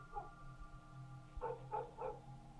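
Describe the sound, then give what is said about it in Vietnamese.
Dogs barking in a village at night: a few faint, short barks, one early and then three in quick succession, over a low steady hum. “chó ở trong làng cứ thế sủa cả lên.”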